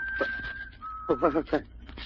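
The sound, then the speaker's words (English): Eerie, bird-like whistling: a thin, steady high tone held for about a second, broken briefly, then sounding again as voices come in over it. “Sounds like a bird, maybe. Birds don't whistle like that.”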